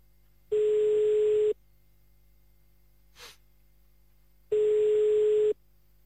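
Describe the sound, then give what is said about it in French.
An unanswered telephone call rings out as two steady, one-second ringing tones separated by a long silence, with a faint, short breathy noise in the gap. “Ça ne décroche pas, hein.”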